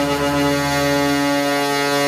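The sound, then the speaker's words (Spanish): Horn of a chiva, a rural bus, giving one loud, sustained low blast that holds a steady pitch for its whole length. “Esta es la bocina de la chiva.”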